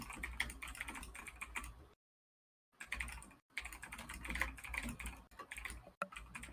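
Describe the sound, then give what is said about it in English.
Furious typing on a computer keyboard, with rapid, dense clatters of key clicks in faint continuous bursts, broken by one short silent pause. “Furious typing.”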